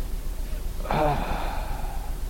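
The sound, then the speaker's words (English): A voice imitates a dying man's slow exhale, producing one breathy, sigh-like outbreath of about half a second that stands out over a quiet, steady background with no other talk. “Every breath could be the last one. And he would exhale, he'd go,”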